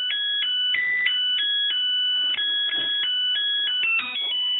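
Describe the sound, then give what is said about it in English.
A Zojirushi rice cooker plays its electronic tune when the rice is ready. Bright beeping notes are held and step between pitches in a steady melody, heard alone. “That's the tune a Zojirushi rice cooker plays once the rice is ready.”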